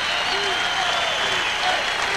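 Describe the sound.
Audience applause at a live music show as a Caribbean composer is introduced, a thick, continuous roar of clapping with faint crowd voices mixed in throughout.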